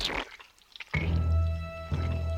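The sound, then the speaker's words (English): A drop of water lands with a wet plop, like rain falling, followed by soft liquid squishing and another faint drip. “Something wet landed on the mouse's head.”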